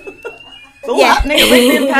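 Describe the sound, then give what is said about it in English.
A fire alarm test in a lingerie shop: a faint steady tone, then a loud buzzing alarm that starts partway through and keeps sounding, with voices over it. “That's just our fire alarm test.”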